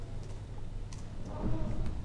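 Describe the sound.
Soft, scattered clicks of someone typing text on a computer keyboard, faint over a low steady hiss.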